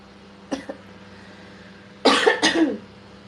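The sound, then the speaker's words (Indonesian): Coughing from a person with a lingering, slightly phlegmy cough: two faint, short coughs first, then after a pause two loud, harsh bursts close together. “Karena aku masih batuk.”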